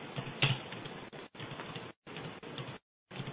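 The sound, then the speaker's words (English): Typing on a keyboard, quiet rapid clicking in short bursts broken by brief pauses. “I'll type it out first.”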